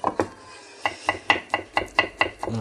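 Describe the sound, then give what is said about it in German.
A knife chops the small stalk ends off cucumbers for a homemade potato salad in a steady run of about ten crisp, evenly spaced cuts, moderately quiet with no talking. “da ist manchmal noch so ein, so ein kleiner Strunk dran von den Gurken, schneidet das weg.”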